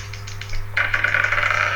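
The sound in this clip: Dice clatter as they are rolled for a perception check in a tabletop role-playing game. A brief burst of rapid, rattling clicks begins just under a second in and continues to the end over a steady low hum.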